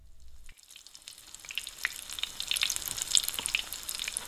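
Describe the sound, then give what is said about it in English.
Hamburger frying in a pan: a steady crackling sizzle that starts after a brief near-silent moment and continues throughout, with scattered sharp pops of spitting fat. “First, fry the hamburger.”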